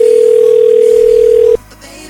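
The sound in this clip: A single steady telephone beep sounds while a call is being dialed, holding one even pitch for about a second and a half before cutting off abruptly to near quiet.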